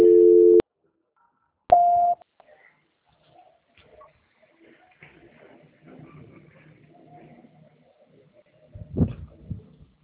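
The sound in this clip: A telephone line tone during a call transfer: two short electronic beeps, then near silence with only faint, scattered line noise and a brief soft crackle near the end.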